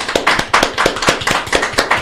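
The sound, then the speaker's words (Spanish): Applause from people in a radio studio: a short burst of dense, loud, steady hand clapping with no voices. “Pido un aplauso para mis compañeros aquí presentes.”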